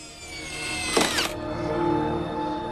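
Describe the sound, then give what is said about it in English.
A power tool drives screws to fasten porch windows shut, giving one short, sharp whirring burst that quickly winds down over a steady low hum. “is using a power tool to screw the porch windows shut”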